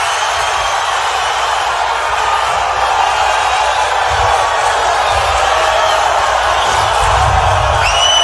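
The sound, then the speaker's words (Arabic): Fans and journalists cheering as Neymar arrives at a Brazil national team press conference, a loud, dense crowd din that holds steady throughout, with mixed shouting voices and a few brief whistles near the end. “هذه الاجواء طبعا في الندوه الصحفيه الصحفيين الجماهير”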